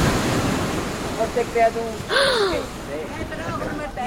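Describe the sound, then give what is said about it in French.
Rough sea waves roll in on a strong wind, a continuous broad roar of surf that swells and eases, with gusty rushing noise throughout. “Les vagues roulaient comme des tubes de métal bleu, portant à leur sommet le blanc d'œuf de l'écume,”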